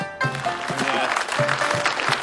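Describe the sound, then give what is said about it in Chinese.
Applause from the audience at a live crosstalk comedy performance, a short dense burst of clapping lasting about two seconds with voices mixed in. “我认为大家的掌声啊主要是给王玉先生鼓的。”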